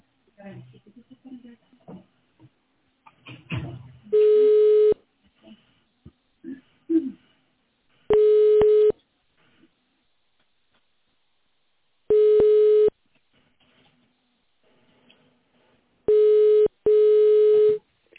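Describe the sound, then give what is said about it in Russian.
Steady single-pitch telephone tones sound on an automated phone line, repeating at even intervals with silence between, the last one doubled, after a brief stretch of speech at the start. “Наберите номер внутреннего абонента или нажмите 0 для соединения с оператором.”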